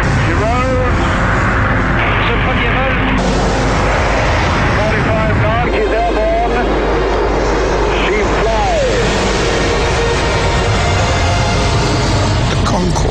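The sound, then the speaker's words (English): Concorde 001 supersonic airliner taking off on its first flight, a loud, continuous jet roar sustained throughout, with voices talking over it. “a great breakthrough for aviation because Concorde had its very first flight. There at the end of the runway is Concorde 001. Just seconds to go.”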